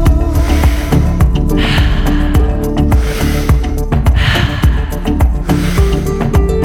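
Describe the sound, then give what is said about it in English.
Fast, deep breathing in a breathwork meditation: forceful, breathy rushes of air repeat over loud, dense rhythmic music with steady percussion throughout. “Hear the sounds of ha, the breath of life.”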